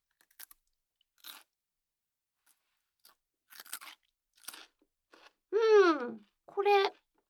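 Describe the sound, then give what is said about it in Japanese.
Crunchy food is bitten and chewed in a few sharp, scattered crunches separated by quiet gaps. Two louder, drawn-out tonal sounds follow near the end. “で、食べた音は、こんな感じ。ちょっと食べるで。”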